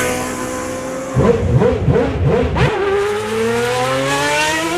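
A Formula 1 race car engine screams at high revs. A burst of rapid pulsing shifts comes midway, then a smooth whine climbs steadily in pitch to the end.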